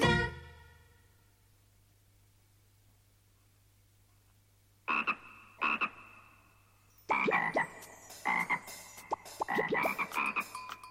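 Frog croaking: after several seconds of near silence, two rasping croaks sound, then a faster run of many loud, buzzy croaks follows in an uneven rhythm until the end.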